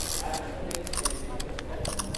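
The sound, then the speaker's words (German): A few faint, sharp camera shutter clicks as photos are taken on a subway platform before the train arrives. The short ticks come at irregular intervals over a low background. “mach doch mal ein paar Fotos von mir, bevor die U-Bahn einfährt.”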